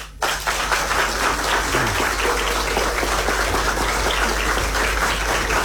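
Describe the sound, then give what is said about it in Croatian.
Audience applause greeting a newly announced guest starts abruptly and continues as a dense, steady patter of many hands, with a low, constant hum beneath it and no voices. “a sada, dragi posjetioci, zaplješćite živo, živo, dolazi nam Gavrilović Ivo.”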